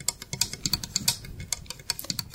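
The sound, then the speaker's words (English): Fingernails tapping and clicking on a little plastic house built from Lego bricks: many faint, crisp, light ticks in an irregular, quick rhythm, heard alone. “Here she is quietly touching a little house made of Legos with her fingernails.”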